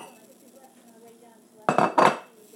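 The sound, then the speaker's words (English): A china bowl set down to feed the dogs gives two quick, bright clattering knocks close together, after a quiet stretch. “Okay, I'm going to feed the dogs now. Now, Tooth can have a china bowl.”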